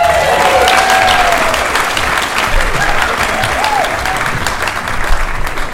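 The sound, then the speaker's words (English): Applause from a live show audience at Woodford Folk Festival, a dense, steady wash of many hands clapping that holds at an even, loud level from start to finish. “Could you please put your hands together for Sarah Steele?”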